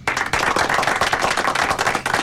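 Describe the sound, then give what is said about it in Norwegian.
Clapping in a radio studio: a brisk run of many sharp hand claps, steady and fairly loud, with no talk over it. “Nå skal vi klappe litt på det.”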